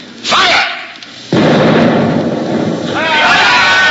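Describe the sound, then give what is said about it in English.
A ship's cannon fires with a loud blast, followed by a sustained roaring rumble, while voices shout over the noise. “Now, a shot. I'll give them a round directly amidships.”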